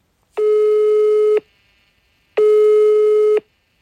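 Telephone ringing tone while a call is placed: two long, steady, mid-pitched beeps of about a second each, loud and alone, separated by a second of silence.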